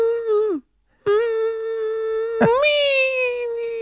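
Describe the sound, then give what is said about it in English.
A person vocally imitates a high-pitched whine: two drawn-out, nasal whining tones separated by a short pause, the first tailing downward and the second jumping higher partway through and holding there. “And you've given us an example of that high-pitched whine before, right? Don't we have a drop of you doing that somewhere? Well, it goes like this.”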